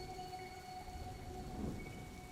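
Heavy rain pours in a steady, dense hiss, with a faint low rumble swelling briefly near the end and a soft sustained hum beneath.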